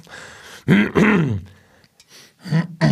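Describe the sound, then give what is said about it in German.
Low, croaky burps, a few throaty voiced bursts with gaps between them, fairly loud, the later ones shorter, with no talking. “Sorry, reinrülpsen.”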